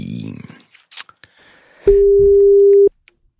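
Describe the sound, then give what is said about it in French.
Telephone line tone after a number is dialed: a few soft clicks and brief beeps, then a single steady, loud tone that holds for about a second and cuts off abruptly. “je te laisse composer le numéro, nous allons voir ce que ça donne”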